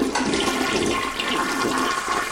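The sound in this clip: A toilet flushes in one loud, steady rush of water that lasts the whole couple of seconds, with no one talking.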